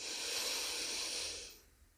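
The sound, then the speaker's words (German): A deep breath at the close of a guided relaxation session: a single long, airy rush that holds steady, then fades away after about a second and a half. “Atme noch einmal tief ein”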